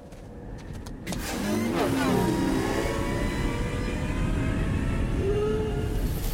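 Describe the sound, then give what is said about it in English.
Sci-fi speeder bike engine sound effect, a loud, steady roaring rush with whining engine tones that sweep and bend in pitch as the bikes race past, blended with windy sandstorm noise. “So Luminara unduly takes off with a clone trooper on speeder bikes, or at least what passes for speeder bikes in the Clone Wars era, and yet they sound eerily familiar. Listen to this clip.”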